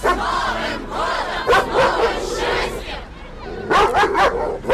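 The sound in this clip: A dog barks among children playing at a festive outdoor playground on a New Year's night. A few sharp barks cut through continuous loud shouting and chatter from the children.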